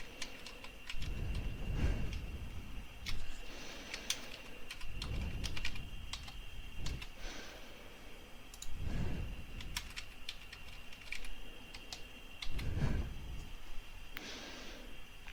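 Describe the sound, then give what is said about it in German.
Computer keyboard typing as a name and password are entered, a steady run of quick key clicks with occasional heavier thumps at regular intervals, moderately quiet and with no voices. “geben wir jetzt Namen ein, mein Beispiel Max Muster, vergeben ein Passwort,”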